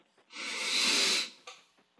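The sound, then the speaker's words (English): A single deep breath taken during a guided relaxation exercise: a long, airy hiss that swells, holds for about a second and fades, followed by a softer, brief breath sound. “I want you right now to close your eyes and take a deep breath.”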